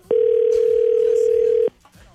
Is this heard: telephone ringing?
yes